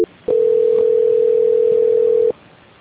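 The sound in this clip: A telephone call transfer tone sounds as one continuous, steady mid-pitched beep lasting about two seconds, loud and alone on the line, preceded by a very short blip.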